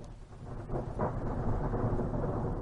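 Thunder from a thunderstorm at Big Bend National Park: a deep, continuous rumble that swells after about a second and then rolls on steadily at a low pitch, with no voices.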